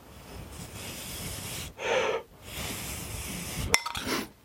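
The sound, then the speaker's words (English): Someone blows on hot tea to cool it, making breathy, airy puffs: a short burst followed by a longer, softer blow with a small click partway through, set against quiet background hiss. “I'm just going to have to blow on this to cool it down, so excuse me for a moment.”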